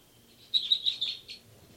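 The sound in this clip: Birds calling in a quick series of high, thin chirps, faint above a low background hiss, followed by a short pause and one more chirp at the end.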